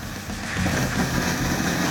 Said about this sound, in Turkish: Hortumda tıkanma olduğunda kompresörü çalıştırmak hortumu tutan kişi için son derece tehlikeli. Basınç bir anda salınacak olursa onu havuzun duvarına fırlatabilir ve yaralanabilir. Çalıştır.